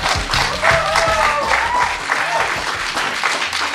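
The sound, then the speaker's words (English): A live studio audience at a Hollywood album premiere applauds with dense, steady clapping throughout, mixed with a few voices in the crowd. “Via satellite from Hollywood, you're listening to the world premiere broadcast of Us, the brand new album from Peter Gabriel. I'm Redbeard, and with us and Peter Gabriel, a live studio audience.”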